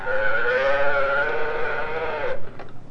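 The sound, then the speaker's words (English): A pull-string toy plays its recorded cow moo, a single sustained, buzzy tonal call lasting about two seconds that cuts off abruptly, followed by faint clicks. “if we pull this way up, The cow says,”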